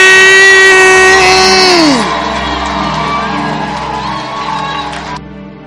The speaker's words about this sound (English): I want you to clap and I want you to have shouts of Jesus joy.